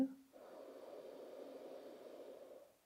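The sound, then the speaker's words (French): A deep, slow inhalation taken during a relaxation breathing exercise: one long, steady, airy breath drawn in for over two seconds, soft and heard alone. “On y va, on inspire”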